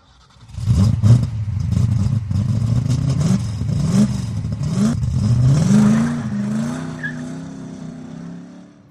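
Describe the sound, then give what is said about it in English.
An old F coupe's engine roars as it is driven fast on dirt and gravel. Its loud, steady drone rises and falls in pitch over broad rough noise. “I drove as fast as the old F coupe could go, kicking up dirt and gravel behind me.”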